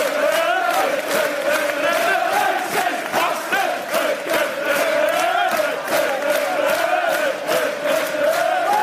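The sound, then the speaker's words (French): Fulham supporters at a football match in December 2011 chant an insulting song at Liverpool striker Luis Suárez. Many voices sing in unison, a loud, sustained melodic chant with a wavering tune and a steady rhythmic pulse. “Et le 3 décembre 2011, Suarez a adressé un doigt d'honneur au public de Fulham, suspendu un match. Et il faut dire que le public n'avait pas arrêté de l'insulter en chantant ça.”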